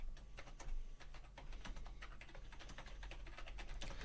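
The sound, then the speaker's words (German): Computer keyboard typing: many quick, irregular key clicks tap away faintly and continuously, with no voices. “ich bin mir ziemlich sicher, dass er gerade nur so tut, als würde er schreiben.”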